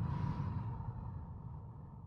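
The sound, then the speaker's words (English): Slow breathing in and out during a relaxation exercise, a soft, steady airy rush that stays faint and even throughout with no talk. “Breathe in and breathe out. Breathe in and breathe out.”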